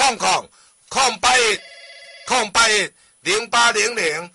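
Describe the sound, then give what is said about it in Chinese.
A telephone rings with one steady electronic tone, set between bursts of lively talk from people speaking before and after it. “电话”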